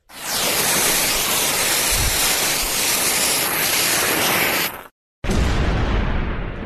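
An explosion sound effect roars as a loud, sustained wash of noise for about five seconds, cuts off abruptly, then bursts back in for a second blast.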